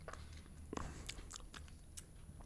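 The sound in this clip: Soft crunching bites into a wax bottle candy, heard as a few faint, crisp snaps and chewing sounds that are quiet throughout.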